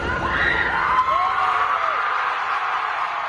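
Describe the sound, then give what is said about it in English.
Supporters outside a courthouse in suburban Boston cheer an acquittal in a murder retrial, with whoops and shouts rising over a loud, continuous crowd roar. “Supporters of Karen Reed cheered her acquittal in her retrial on charges of second-degree murder.”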